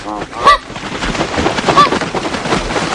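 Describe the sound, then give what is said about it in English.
Migratory birds from a documentary film honking like geese, with two loud, clear honks standing out over a continuous rushing, rumbling background. “That's the sound of the film Winged Migration, a documentary that followed migratory birds.”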